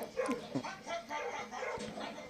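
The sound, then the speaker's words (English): A dog whimpering, with a few high, thin yips and whines near the start that give way to softer, rougher whining noise. “he knows that dog's acting. He's like, that dog's a bad actor.”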